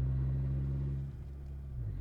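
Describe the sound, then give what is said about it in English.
Car engine with a loud muffler while driving toward an expressway, a deep, steady exhaust drone with a low humming tone that briefly eases and then builds again, with no voices. “Hopefully you can hear me over this muffler. To me, it sounds really loud.”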